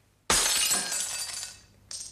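Glass shatters in a sound effect: one sudden loud crash with a bright, fizzing spray of shards that slowly fades, then a smaller, thinner burst of tinkling glass right at the end.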